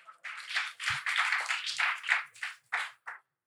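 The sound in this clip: An audience applauds briefly as a foundation's executive director is introduced at a panel discussion. The clapping is faint and patchy, coming in a few short bursts before it stops.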